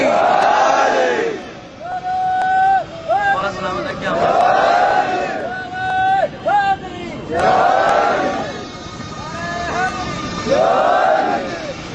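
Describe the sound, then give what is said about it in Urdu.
A crowd at a Shia mourning gathering honouring Husain and Abbas shouts the Naara-e-Haidari slogan back in answer. Loud, strained chants of many voices rise and fall in repeated bursts with brief gaps between them. “نعرہ حیدری”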